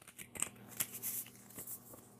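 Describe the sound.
Soft shuffling of a card deck before a new-year self-care reading, a quiet run of irregular flicks and papery riffles with a few sharper snaps, with no talk.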